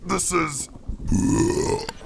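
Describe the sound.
A long, loud, rough burp rumbles out after a brief voiced sound, deep and gravelly, its pitch drifting slightly upward before it cuts off.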